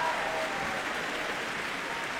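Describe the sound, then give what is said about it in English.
Applause at an orchestral concert as the conductor and audience clap for the orchestra: a continuous, even, moderately loud texture of many hands with no pauses. “He's applauding the orchestra.”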